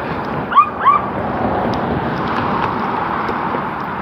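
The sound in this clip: A dog gives two short, high yips close together near the start, then only steady background noise continues, in a busy setting with police and dogs around.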